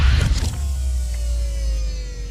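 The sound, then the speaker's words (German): A continuous electric motor whir with a low rumble and a faint whining tone, used as a motorised command bridge retracting. It is steady and fairly loud, with no talk. “Ich fahre die Kommandobrücke ein.”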